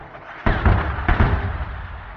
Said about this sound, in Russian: тут началась орудийная стрельба. Снаряды разрывались недалеко.